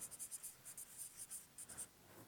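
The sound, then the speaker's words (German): Handwriting with a pen: many short, scratchy strokes come in quick, irregular bursts with brief pauses between them, faint and alone without voices. “Also ist nicht so einfach hier unten zu schreiben, ne?”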